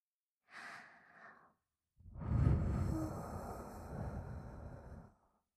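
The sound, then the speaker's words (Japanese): Breath is blown gently into an ear in two soft, airy puffs: a short, light one, then a longer, fuller blow that slowly fades out. Quiet, with no voices. “お耳、ふうふうしてあげちゃいまーす。”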